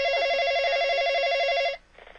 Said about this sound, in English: Somebody's phone is ringing.